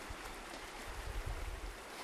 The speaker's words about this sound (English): So I'm down in the valley now on a small bridge over the river, and the river is flowing really quickly.